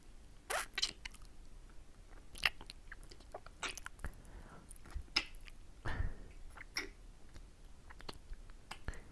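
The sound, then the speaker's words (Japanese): Food is bitten and chewed in quiet, crisp crunches and small wet clicks, scattered irregularly over several seconds with no talking. “言うこと聞いてくれたから、ちょっと食べるね。”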